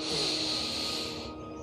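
A slow, deep exhale during guided meditation, a steady breathy hiss that holds for over a second before tapering away.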